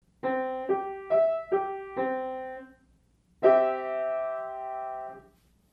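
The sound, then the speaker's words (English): A C major triad inversion spelled C-G-E, five single notes stepping up then back down in pitch, then all three struck together as a held chord that slowly fades, clear tones alone in silence. “because I see one more possible inversion, spelled C-G-E. It sounds like this.”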